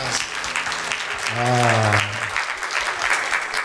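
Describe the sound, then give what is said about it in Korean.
Audience applause after a worship song at a church performance: a dense, steady wash of clapping in which a voice briefly rings out partway through. “박수 올려드리겠습니다.”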